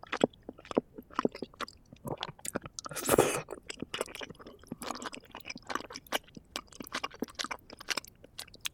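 Close chewing of cabbage eaten with spicy gochujang: many crisp, wet crunches come in an irregular rhythm, with one louder, longer crunch partway through. There is no speech.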